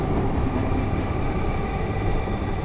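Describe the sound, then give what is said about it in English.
Loud, steady rumbling roar of a passing suburban train on the Sandringham to Flinders Street line, a dense continuous wash of rail noise that holds level throughout with no voices. “Here comes a train. Choo choo choo choo choo. Get a load of this.”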